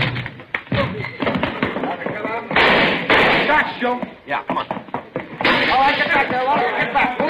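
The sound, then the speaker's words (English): Gunshots ring out in a radio police drama during an arrest, a few sharp bangs mixed into dense, overlapping shouting voices. “Shots, Joe.”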